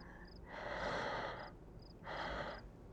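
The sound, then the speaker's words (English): Slow, deep breathing, two long, airy breaths drawn in and let out, fairly soft, with faint high beeps recurring in the background and no talking. “Let's just take some deep breaths.”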